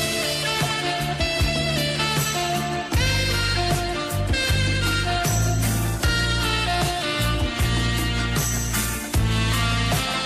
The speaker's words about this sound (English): Naomi, the matchmaker, is playing some mood music to set the scene and make this match. If you listen real close, I think you can hear it.